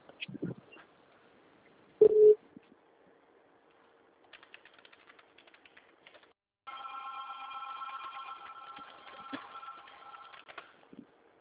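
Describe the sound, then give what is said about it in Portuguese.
Telephone ringing with an incoming call: a short beep, then a sustained electronic ring with steady tonal overtones lasting several seconds, with no talk over it. “Só um minutinho que estão me ligando aqui.”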